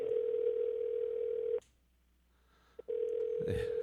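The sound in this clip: A telephone ringing on an outgoing call: a steady low electronic tone, then a pause of about a second, then the same tone again.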